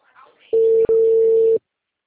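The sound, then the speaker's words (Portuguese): A telephone line tone as a call drops: a steady, loud mid-pitched beep lasting about a second, broken once by a brief click-like interruption, then silence. “Ui, a ligação caiu.”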